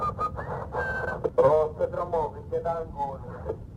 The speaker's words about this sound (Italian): Si sente addirittura uno che fischietta.